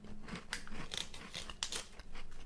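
Crunchy bites into a rolled sweet filled with white chocolate, giving several sharp, crisp crackles and crunches at a fairly quiet level, with softer chewing in between.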